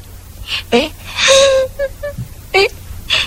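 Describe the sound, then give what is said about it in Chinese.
A girl crying, with several sobbing, whimpering bursts and one drawn-out wailing moan in the middle. The cries are moderately loud and come in uneven fits with short gasps between them. “你这是怎么了？ 你怎么哭了？”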